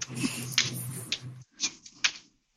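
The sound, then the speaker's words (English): Oracle cards are flipped in a few soft, crisp flicks and taps, faint and spaced apart. A low hum runs beneath the first half. “And she's flipping cards. As I'm flipping, I know, right? So, and I'm flipping, and I'm trying to find some stuff.”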